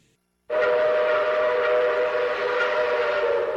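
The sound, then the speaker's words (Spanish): A train arriving at a station bursts in after a moment of silence, a loud, steady rumbling wash with a sustained whining tone running through it that holds evenly to the end. “Próxima estación Floresta. Estación con acceso a Fito Salud.”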